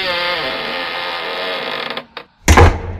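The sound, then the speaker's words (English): A key works a lock and the door creaks open: a sustained grinding creak, then a brief click, a moment of near silence, and a louder burst of scraping to finish. “Open it then. I'm trying. We'll get the key. I am using the key. Got the one. Yeah, there we go.”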